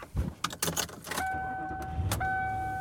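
Car sounds as someone drives home. A few clicks and knocks are followed by a steady engine hum and a sustained electronic tone.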